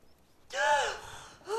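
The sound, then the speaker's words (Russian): A woman in labour breathes heavily in pain: one long, strained gasping breath that fades out, then a second harsh intake begins. “Мария кривит лицо от боли, тяжело дышит.”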